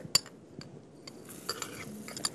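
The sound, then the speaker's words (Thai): Borneol crystals dropped into a homemade liquid cold remedy mixture: a few light clinks and scrapes, like a spoon stirring against a container, fairly faint over a soft steady background. “ตอนนี้ก็ ใช้พิมเสนนะคะ พิมเสนลงไปเนาะ”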